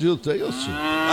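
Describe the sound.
A berrante, a cattle horn blown by a radio host on cowboy day, gives a short, low, lowing tone that bends in pitch, then settles into a steadier sustained note while people talk briefly over it.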